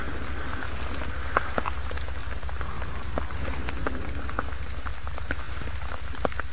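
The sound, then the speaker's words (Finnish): Steady rain falls in a dark forest at night, a dense, even hiss with scattered small drop taps and a low rumble underneath, continuing without a break. “sade. Se jatkuu edelleen, mutta kyllä se tästä on helpottamassa.”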